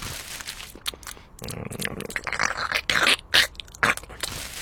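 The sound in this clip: Crunching and chewing stand in for a child eating mixed screws as food: loud, gritty bites and grinding scrapes in an irregular run of many crunches, with no talk.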